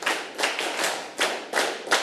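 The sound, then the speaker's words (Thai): Children clapping their hands together during a class lesson: a few broad bursts of slightly ragged group claps, each one smeared as many small hands strike at once. No talk is heard. “เด็กๆปรบมือ1ครั้งปรบมือ1ครั้งปรบมือ10ครั้ง”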